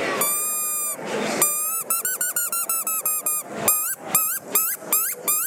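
A small 2.5-inch handheld predator call, used for foxes, imitates a mouse squeak: a long piercing squeal, then many short, sharp, high squeaks in rapid bursts, loud and alone.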